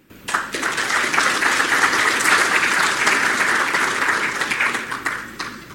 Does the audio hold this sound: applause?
yes